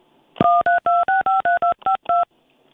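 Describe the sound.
Telephone keypad dialing tones as a call is placed: nine short, evenly spaced two-pitch beeps in quick succession, clear and alone with no voices.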